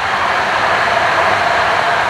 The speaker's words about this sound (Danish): Det var tog.